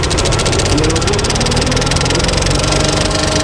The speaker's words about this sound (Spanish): Ahora arrancamos la lámpara. Y ahora ya podemos proyectar.